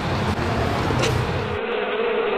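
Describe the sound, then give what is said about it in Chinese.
Bees buzzing in large numbers as they escape their hives on a hot late morning, a dense continuous drone that is loud and steady throughout, with a broad noisy hiss underneath and no talking. “临近中午，温度越来越高，蜜蜂大量外逃。”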